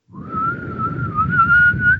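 A person whistles one long, steady mid-high note that wavers slightly in pitch for about two seconds, with low rumbling noise underneath.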